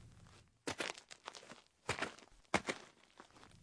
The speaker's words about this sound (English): If we were to imagine that those walking sounds are that of an African animal tracker, tracking antelope or any number of critters in the desert